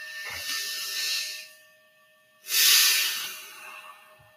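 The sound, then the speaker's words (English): A slow, deep mindfulness breath: two long, airy hisses separated by a short quiet gap, the second louder and fuller, with faint steady tones held underneath. “I don't know if you hear this, but this is my mindfulness breath. Take a breath with me.”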